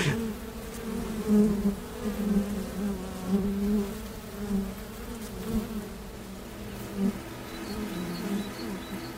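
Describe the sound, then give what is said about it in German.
Bees kept by a beekeeper buzz in a continuous low, droning hum that swells and eases slightly in loudness throughout, with no voices over it. “Die Bienen waren nicht so vertreten hier nördlich von Wien, wie ich es von Oberösterreich her gewohnt war. Das war mit ein Grund, mich intensiver mit der Imkerei zu beschäftigen. Wo ist das Summen? Jetzt ist es wieder da.”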